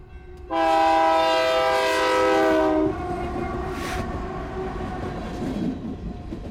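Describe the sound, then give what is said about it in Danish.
A passing train sounds a long, loud, steady horn chord for about two seconds. The horn then cuts off, leaving the train's continuous rumbling and rattling at a lower level. “Jeg bliver nødt til at sende dig en toglyd også. Ja. Altså, fordi jeg elsker jo toglyde.”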